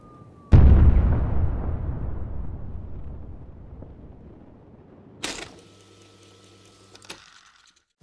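Guns firing: one heavy blast booms out and its rumble decays slowly over several seconds, then a few fainter, sharper bursts follow.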